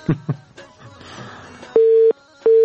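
Busy tone after a phone call is cut off: two long, steady, mid-pitched beeps with a short gap between them, following some brief muffled noise at the start.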